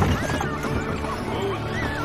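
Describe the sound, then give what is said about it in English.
Horses being ridden in come to a stop, with a whinny and hoof clatter under a busy, noisy background of outdoor activity. “The horses stop.”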